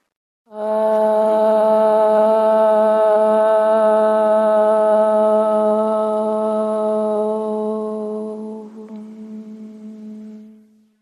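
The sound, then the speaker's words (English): A group chants the sacred Hindu sound Om at a yoga and dharma program, holding one steady, mid-low tone rich in overtones for about ten seconds before it gradually fades out. “We'll chant the sound Om. It's a sacred sound from the Hindu tradition.”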